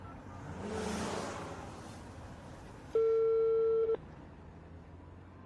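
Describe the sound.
A telephone ringback tone while placing a call from a moving car: one steady, loud beep lasting about a second, and a second one starting at the very end, over a low engine rumble.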